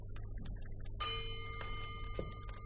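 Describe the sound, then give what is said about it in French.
A pendulum clock in a house sealed shut for a century and a half gives one clear, bright chime that rings on and slowly fades. A softer, shorter strike follows over a faint low hum. “Ciel! Un carillon de pendule.”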